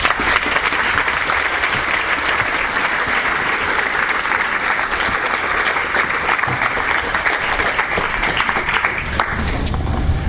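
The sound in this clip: Audience applause welcomes two authors at an evening book talk on geography, a dense, steady clapping that holds at a loud, even level for about ten seconds with no voices over it.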